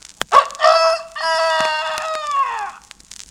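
A rooster crows once, loud and bright. A short opening note leads into a long, drawn-out cry that sinks slightly in pitch as it fades, with a few faint clicks around it.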